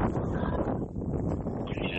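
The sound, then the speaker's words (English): Wind buffeting a microphone outdoors during a walk with dogs: a steady, loud, low rumbling roar that fills the whole clip with small surges and no voices. “I feel like it wasn't even this windy when I first stepped outside, but as soon as I start recording, it gets windy.”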